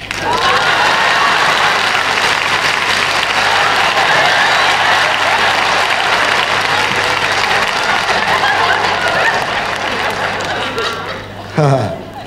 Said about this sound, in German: Bühne erscheint soeben von tosendem Beifall umbrandet der Vortragskünstler August Nuttnert.